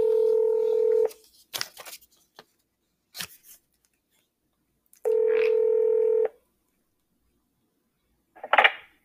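Touch-tone keypad beeps select options in a court's automated phone menu: two long, steady tones separated by scattered clicks and handling noise, then a short burst near the end.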